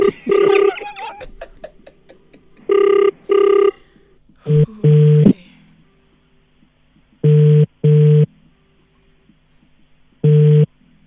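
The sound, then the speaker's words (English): A telephone is dialled with a quick run of keypad tones, then rings with repeated double-pulse ringback tones, several pairs separated by pauses, loud and alone on the line. “All right, let's dial that one.”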